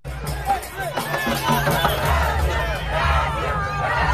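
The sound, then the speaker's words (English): Brazilian football fans crowd Times Square before a World Cup match, a dense, steady hubbub of chatter and shouting voices with no pauses. “That's the sound of Brazilian football fans there warming up in Times Square for tonight's World Cup match.”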